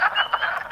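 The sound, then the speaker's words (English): Frogs call at a vernal pool in spring, a dense chorus of buzzy, rasping croaks pulsing steadily through the short clip with no voices. “And you might think that the sound of spring should be birdsong, and to be honest, I did too, until people started sending in all these recordings of frogs.”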